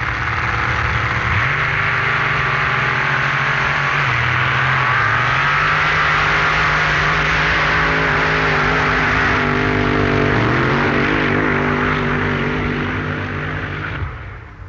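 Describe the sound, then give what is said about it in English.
A supercharged 6-litre Chevrolet petrol engine in the dragster Moon Eyes drones loudly and continuously. Its pitch steps up sharply near the start and wavers slightly before the engine cuts off at the end. “The second, quite different sound, was the 6-litre supercharged Chevrolet petrol-burning motor in Dean Moon's famous dragster Moon Eyes, driven by Dante Juice from Las Vegas.”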